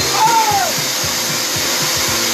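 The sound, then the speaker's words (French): Small snow machine running during a snowstorm and making real snow, a loud steady blowing hiss with quick regular low thumps underneath and a brief high whistle that dips in pitch near the start. “Donc tempête de neige aujourd'hui, hein, vous avez vu, j'ai mis une petite machine. Bon, je vous fais la petite démo vite fait.”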